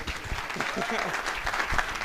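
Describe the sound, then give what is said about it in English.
An audience claps in steady, moderately loud applause that continues throughout, with a voice faintly audible over the clapping. “So I think maybe by way of just an applause, just to get everyone, just appreciate her, just with some love, please.”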